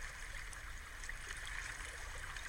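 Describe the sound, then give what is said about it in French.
Gentle sea waves on a beach as a meditation backdrop: a faint, steady watery wash with no distinct breaking surges, soft and continuous throughout. “Peut-être même que l'on va entendre les vagues.”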